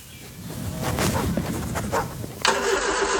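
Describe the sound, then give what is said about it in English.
A ute engine starting: a rough cranking churn for about two seconds, then the engine catches and settles into a steady, humming run. “your ute's been making that noise since Easter, and the trailer's not far behind.”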